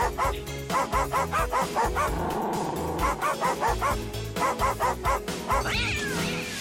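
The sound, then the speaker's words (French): Dog barking as part of a song played in a guess-the-song game: many high, yippy barks pitched into a melody, coming in quick rhythmic runs with short pauses, over a steady backing. “C'était un chien très discret.”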